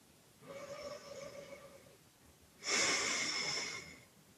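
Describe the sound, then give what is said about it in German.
A person takes a deep breath in and out. A quieter, slightly whistling breath is followed after a brief pause by a louder, rushing breath that fades out. “Dann atme mal ein paar Mal tief ein und aus.”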